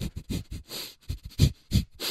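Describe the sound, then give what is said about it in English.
A person imitates a dog by sniffing rapidly through the nose in many short, breathy bursts with an uneven rhythm, with no talk. “I think that dogs communicate with each other through sniffing.”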